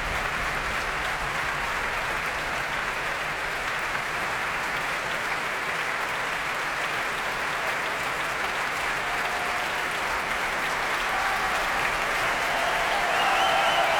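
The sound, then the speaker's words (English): Concert audience applause after Beethoven's Violin Concerto in D major, played by Hilary Hahn with the Deutsche Kammerphilharmonie Bremen. A dense, steady wash of clapping holds for the whole stretch and swells a little louder near the end. “The audience, as you can probably hear, would rather like her to come back.”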